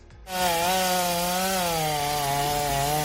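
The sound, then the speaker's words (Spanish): A chainsaw roars steadily as soldiers of a military emergency unit cut dangerous tree branches after a heavy snowfall in Madrid. The loud, buzzing engine note holds at an almost constant pitch throughout. “Particulares, servicios de limpieza y también los militares de la Unidad Militar de Emergencias se afanan, como en este caso, en cortar las ramas más peligrosas”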